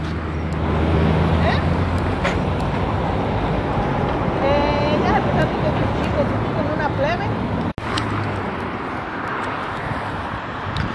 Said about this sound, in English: Okay, so I'm by the public transportation stop, so I'm gonna go.